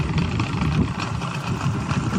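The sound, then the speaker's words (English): Motorboat engine on a boat moving through Iraq's marshes, a steady, mid-pitched throbbing hum with water-like rushing noise and no voices. “It shows a man riding a boat in Iraq's marshes.”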